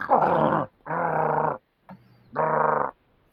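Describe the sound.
A dog growling and snarling in three loud, harsh, rasping bursts, with a brief short grunt between the second and third, and no talk.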